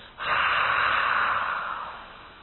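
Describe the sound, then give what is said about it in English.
One long open-mouthed exhale, like breathing on glasses to fog them for cleaning, done as a breathing exercise: a soft, airy hiss that begins abruptly, holds for about two seconds and fades slightly at the end, with no talk. “You know how people clean their glasses sometimes? So with your mouth open, make that sound.”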